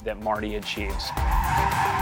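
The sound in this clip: Tires screech as a self-driving car built for doing donuts skids in circles, a sustained high squeal over low engine rumble, preceded by a brief voice.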